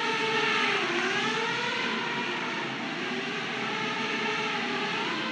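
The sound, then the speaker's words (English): Four propellers, one at each end of an X-shaped autonomous racing drone, make a loud, steady buzzing whine. Its tone dips briefly early on, then holds steady. “That's the sound of the Racer AI autonomous aircraft, a sleek X-shaped drone. The sound you hear is coming from the vehicle's four propellers, one located on each end of the X.”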